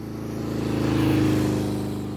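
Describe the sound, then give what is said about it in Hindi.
A motorbike engine drones as the rider sets off on a road trip toward Dirang, a low, throbbing hum that swells in loudness and then eases slightly near the end. “Rahul bike start करता है और निकल पड़ता है दिरंग की ओर।”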